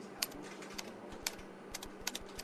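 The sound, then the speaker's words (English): Fingers type a website address on a computer keyboard, producing many faint, irregular key clicks in quick succession, with no voices. “Okay, so just type the job website address here.”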